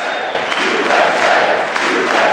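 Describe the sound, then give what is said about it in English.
Crowd cheering in a legislative chamber during a presidential speech, a loud, continuous roar of many voices with no break. “His speech was often interrupted by cheers and chants of USA.”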